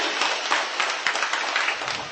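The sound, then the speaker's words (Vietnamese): A church audience gives a round of applause to welcome a member invited up to share, with dense, continuous clapping at an even level throughout. “Rồi chúng ta cho một tràng pháo tay để hoan hô người anh chị em này.”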